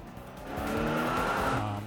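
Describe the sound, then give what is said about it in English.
Car tires squeal as a car takes a sharp turn during a chase. One brief, faint skid with a steady engine tone beneath it swells and then eases off within about two seconds. “he is going to attempt to take a sharp turn and attempt to lose you.”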